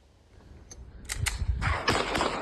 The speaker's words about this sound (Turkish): Sokak ortasında silah çekip havaya ateş açtı.